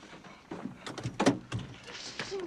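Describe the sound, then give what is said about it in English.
A car passenger door opens with a few quiet clicks and thunks from the latch and panel, mixed with soft rustling. The sounds are faint and irregular. “Opening the passenger door, she falls to the pavement.”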